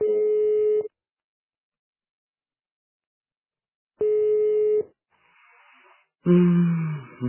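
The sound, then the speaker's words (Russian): Ringback tones of an unanswered phone call: two steady, flat beeps under a second each, separated by about three seconds of silence. Faint line noise and a short, louder burst follow. “Ну, блин, ну чё не берёт трубку?”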